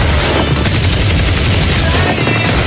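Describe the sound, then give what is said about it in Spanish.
Machine gun firing in a loud, unbroken burst of rapid shots that fills the whole clip with harsh, dense crackling. “A ver, ¿quién ha sido? ¿Quién ha disparado con la ametralladora?”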